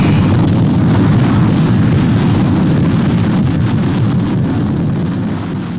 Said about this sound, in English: Loki rocket ready for liftoff. Stand by. Yep. Primitive peoples. Standing by. Retro rockets online. Firing main.